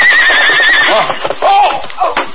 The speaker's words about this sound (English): The big paint horse raced over the plains at a gallop.